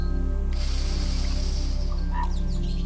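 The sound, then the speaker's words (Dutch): During a guided relaxation meditation, a slow, deep breath in makes a soft, airy hiss that lasts about a second and a half. It sits over a quiet, sustained musical drone. “Adem nog eens diep in.”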